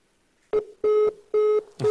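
Telephone line tones after a disconnected call: a loud series of evenly spaced, mid-pitched electronic beeps, about four in two seconds, with short silences between them and no speech.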